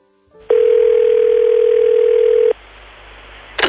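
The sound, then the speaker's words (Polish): A telephone dial tone plays as a phone call is placed: a steady, loud, single-pitched tone lasting about two seconds, then cutting off, followed by a low hum and a short burst of noise at the end. “Tej samej nocy zadzwoniłem do Barbary.”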